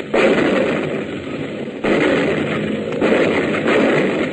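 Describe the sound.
An anti-aircraft gun fires on command, with a few loud, abrupt reports, each followed by sustained roaring, crackling noise that fills the whole clip and barely fades between shots.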